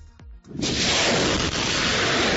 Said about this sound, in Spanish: este es el sonido de la guerra que no cesa, es el sonido de los disparos en Gaza